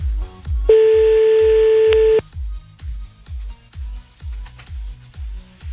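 A telephone tone while a call is redialled: a single steady electronic tone, held for about a second and a half, over a continuous rhythmic thumping beat.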